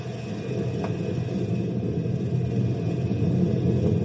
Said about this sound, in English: throw it in gear and raise the gate.